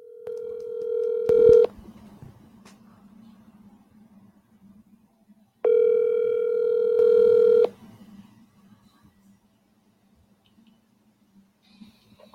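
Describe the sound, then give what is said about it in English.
Telephone tones as a call is placed to bring a guest onto a live sports call-in segment: two long, steady electronic tones separated by a pause, with faint background between them. “Hang on, let's dial him in.”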